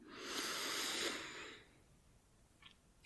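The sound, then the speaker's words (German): A slow, deep breath drawn in through the nose during a relaxation exercise makes a soft hiss that swells and fades over about a second and a half, followed by faint small sounds. “dann atme dreimal tief ein und aus. Durch die Nase ein”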